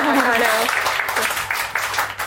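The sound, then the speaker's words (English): An audience at a book talk applauds, and the clapping starts under a voice and then continues as a loose, moderately loud patter. “So I guess this is the time to make a round of applause and introduce everyone else. I can't clap because this will come”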